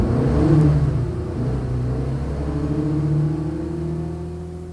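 A car drives off toward Rue de Rivoli in Paris with a steady low engine rumble and a whirring mid tone that hold fairly level and ease slightly toward the end, with no talk over it.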